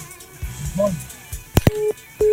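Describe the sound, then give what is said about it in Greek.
Busy tone on a telephone line after a call drops: a few faint murmured sounds, then two sharp clicks, then two steady mid-pitched beeps separated by a short gap. “Πάλι πέφτει η γραμμή γιατί. Πάρε πάλι.”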